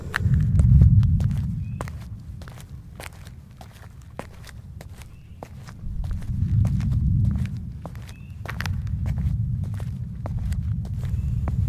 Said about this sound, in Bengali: গ্রামের ভেতর দিয়ে সে হাঁটছে চারিদিকে তাকিয়ে তাকিয়ে সে হেঁটে চলেছে